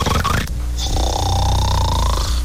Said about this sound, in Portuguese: É, ronca igual um tratorzinho.